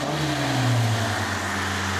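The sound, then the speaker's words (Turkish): A powerful carbureted car engine in need of some work runs with a loud, steady low rumble, briefly revving up before settling back into its even drone. “Güçlü ve efsanevi bir motor bu dostum.”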